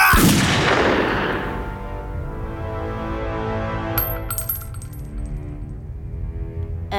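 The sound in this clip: One loud gunshot, fired and missing its target, opens with a sharp blast and then a long decaying tail. A few faint metallic clinks ring out later.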